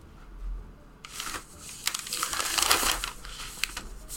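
A sheet of paper is handled with crinkly, rustling bursts that start after a second of near quiet. The paper noise rises into a busier patch of crackling and then thins out, staying fairly soft throughout with no talk.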